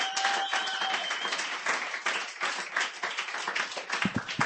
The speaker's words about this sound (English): Give him a hand. Also with an H. And please welcome the Sturgeon General of Poetry Night, Dr. Gary Wade, to our stage.